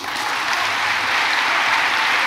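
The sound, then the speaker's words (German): Party delegates at a party conference burst into applause and rise from their seats after the party leader's speech. The clapping is loud, dense and sustained without a break. “Unmittelbar setzt der Applaus ein. Die Delegierten springen klatschend von ihren Plätzen auf.”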